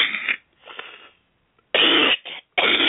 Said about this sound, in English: excuse me, as you can tell, I'm not quite up to par tonight. I'm going to be doing a lot of coughing.